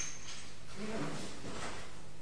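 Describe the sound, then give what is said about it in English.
A toy till drawer slides open with a brief rattling scrape, a faint voice just audible beside it. “Press 5 then. Press 5. And then open the till.”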